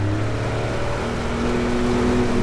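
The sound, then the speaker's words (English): A motorboat's engine drones steadily as the boat travels downriver on the Tiputini River, a continuous, even hum with no break or change in loudness. “carrying stuff down this slippery riverbank to where we could load it onto the boat. And now we're headed downriver on the Tipitini.”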